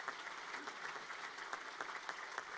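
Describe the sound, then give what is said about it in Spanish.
A church audience applauding at a religious celebration, a faint, even wash of clapping that continues without a break. “Damos un fuerte aplauso”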